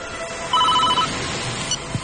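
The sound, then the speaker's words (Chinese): A mobile phone ringing: a brief burst of rapid, high electronic tone pulses, fairly faint against a soft background hiss, with no voices. “寒光正要问什么，蔡小春的手机响了。”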